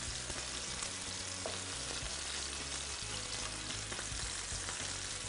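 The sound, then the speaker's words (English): Food searing in a hot pan gives a loud, continuous sizzle. The dense crackle and spatter runs steadily throughout with no pauses and no talking. “All right, so once we've got a little bit of a sear on this, we're gonna go ahead and cover this pan.”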